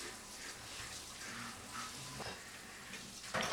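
Water runs from a tap as a spaetzle maker is rinsed off in a kitchen. The hiss of running water stays steady and low, then a louder splash bursts in at the very end.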